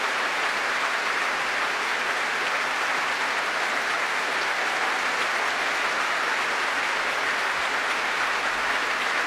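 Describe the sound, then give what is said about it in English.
Promenade concert audience applauds the National Youth Orchestra of Great Britain after Berlioz's Symphonie Fantastique conducted by Semyon Bychkov: dense, sustained clapping that stays loud and even for about nine seconds. “The orchestra getting a lot of support from the promenade, as you can hear, some of it quite vocal.”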